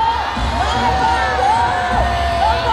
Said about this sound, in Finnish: Ma Ying-jeou, jonka ilmestyminen lavalle räjäyttää 100 000-päisen ihmisjoukon huutoon.